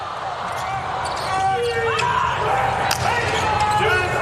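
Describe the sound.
A volleyball serve is struck during a match involving the US team, a sharp hit standing out briefly amid arena noise and whistle-like tones, with commentators talking throughout.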